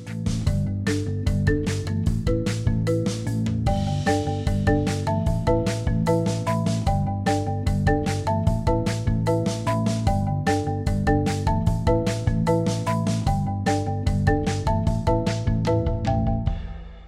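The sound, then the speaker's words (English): Upbeat music combines marimba, percussion, an electric bass groove and a virtual drummer, with bright melodic notes over a steady, repeating rhythmic pulse and continuous percussive hits at a consistent volume. “And then put it all together with the marimba and the percussion sounds I was talking about before, and it sounds like this.”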